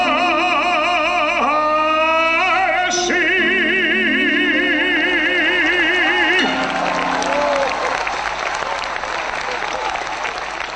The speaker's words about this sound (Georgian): ასეთი აპლოდისმენტები ახლდა თან ბატონ ვანიკოს გამოჩენაზე.